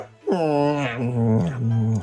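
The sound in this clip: A human voice imitates a dog whimpering, making a drawn-out, whining vocal sound that slides downward in pitch and then wavers at a lower level.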